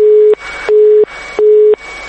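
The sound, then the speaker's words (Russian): A telephone busy tone sounds on a factory line that was cut off for unpaid debts: loud steady beeps at a fixed pitch alternate evenly with bursts of hiss in a regular on-off rhythm. “Телефон завода отключен за долги.”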